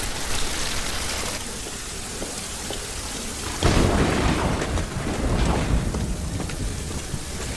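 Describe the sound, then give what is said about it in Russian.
Heavy rain pours down on a yard in the dark in a film scene. A dense, steady roar of rain becomes louder and fuller partway through, with a deep low rumble. “Выбегает под дождь.”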